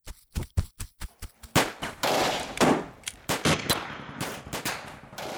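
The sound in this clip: Gunfire erupts while people are being shot at during a getaway: a string of separate sharp, loud cracks gives way to denser, overlapping bursts of rapid shots, with no voices.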